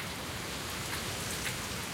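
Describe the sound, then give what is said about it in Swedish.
Rain falling in Gothenburg makes a dense, even patter, a steady wash of drops with no voices or other sounds. “Det regnar idag i Göteborg.”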